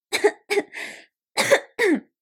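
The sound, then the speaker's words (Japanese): A short coughing fit: five harsh, loud coughs with no other sound, three in quick succession, then a brief pause before two more. “すいません、ちょっと咳込んじゃいました。”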